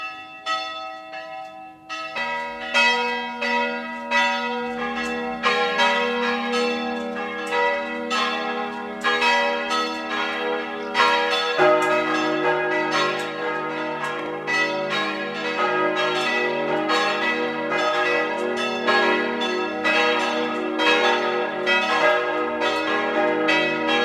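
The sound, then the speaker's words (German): Church bells of the Catholic town parish church of Neusiedl am See in Burgenland ringing at noon, a loud continuous peal of several overlapping bells with many strikes and long ringing tones, no voices. “Sie hören die Glocken der katholischen Stadtpfarrkirche von Neusiedl am See im Burgenland.”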